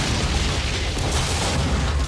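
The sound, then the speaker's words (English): A movie explosion blows up a hallway: a dense, sustained roaring boom holds at steady loudness for about two seconds, with broad crackling noise over a heavy low rumble and no voices. “Oh my god, he blew a whole hallway up.”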